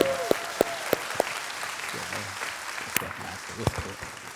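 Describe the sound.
Audience applause welcoming a guest speaker invited into a conversation on John chapter 16: a steady wash of clapping, with a few sharper individual claps standing out and some voices mixed in.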